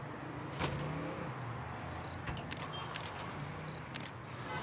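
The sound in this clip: Faint camera shutter clicks from a photographer shooting a groom beside a car at a wedding. A few short, soft clicks are scattered over a steady low rumble of vehicle noise.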